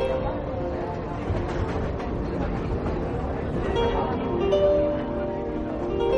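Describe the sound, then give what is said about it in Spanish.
A crowded passenger train travels to Havana, Cuba, with a dense, steady rumble and rattle throughout, a faint tonal whine near the end, and indistinct voices mixed in. “La Habana, Cuba. A bordo de un tren lleno, los pasajeros se abanican.”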